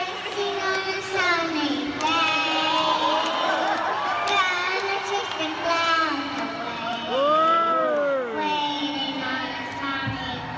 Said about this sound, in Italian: questa bimba che canta ha 4 anni